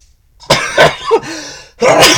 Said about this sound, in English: Anyway, that was a fun sneeze. I actually like sneezing.